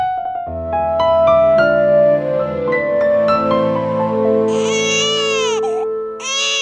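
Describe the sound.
A baby crying in a crib: high, wavering wails break out in the latter half over sustained steady tones.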